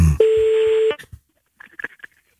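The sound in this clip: Telephone touch-tone (DTMF) dialing as a number is called: one loud, steady electronic tone lasting under a second, then a few faint, short tonal blips.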